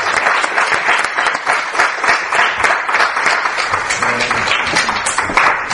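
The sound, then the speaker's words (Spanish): Audience applause at an awards ceremony: a dense, continuous patter of many hands clapping that stays loud and even throughout. “Con lo cual, fuerte aplauso a estos tres actos del misterio del día.”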